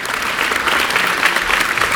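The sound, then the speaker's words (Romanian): Long applause from a theatre audience for the actors at a premiere, dense and steady loud clapping throughout with no breaks. “Aplauze îndelungate răsplătesc efortul actorilor, iar regizorul vine și el pe scenă, ca la orice premieră, pentru a mulțumi publicului.”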